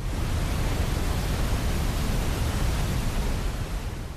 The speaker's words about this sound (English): And this is an example of pink noise.